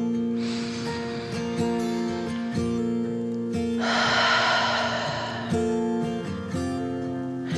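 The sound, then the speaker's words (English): A slow, deep breath in and out, taken as a calming relaxation exercise in a children's nap-time story: two long, soft, airy rushes of breath heard over gentle, sustained background music. “She took a deep dragon breath in and out”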